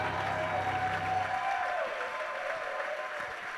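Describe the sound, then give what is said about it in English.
A church audience applauds during a service, with steady, dense clapping and crowd noise that carries on throughout. “Come on, put your hands together. Let us celebrate the Lord our God.”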